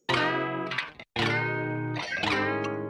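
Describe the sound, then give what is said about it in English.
Plucked strings run through a Culture Vulture distortion unit for subtle, warm saturation, with raked strokes and string noise. A few bright, harmonically rich chord strokes ring out, separated by a brief silent gap near the middle. “this adds that subtle little bit of distortion. I feel like you really hear it on the rakes, like not even like the notes too, but especially it kind of brings out some of the noise of him in the strings.”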